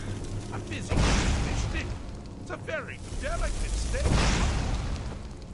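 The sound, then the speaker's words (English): Magic staff blasts as the Wabbajack is cast at Sheogorath in an Elder Scrolls video game: two rushing, booming bursts under ongoing talk and laughter. “And now I'm going to hit him with the Wabjack, see what happens.”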